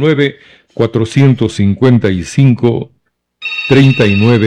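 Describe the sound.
A telephone rings on a call-in line, a steady bright electronic tone that starts after a stretch of talk and keeps sounding beneath a voice that speaks over it.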